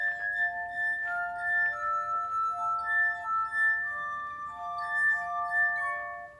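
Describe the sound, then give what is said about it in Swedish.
Ringing tones of a glass harp: fingers played on wine glasses of various shapes filled with different water levels, giving clear, pure sustained notes that shift through a melody, often with two held together. “De bygger så att säga en egen orgel av vinglas i olika former som de fyller med olika vattennivåer, så spelar de med fingrarna på och det är magiskt.”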